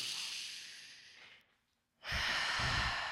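A deep breath: a long, airy breathing sound, a short silent gap, then a second, fuller rush of breath with a low rumble.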